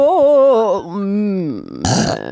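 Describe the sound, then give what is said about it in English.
A loud, drawn-out burp: one voiced belch that wavers in pitch and sags lower as it goes, ending in a short, rough, breathy burst. “And the death burp. You ruined my story with the burp.”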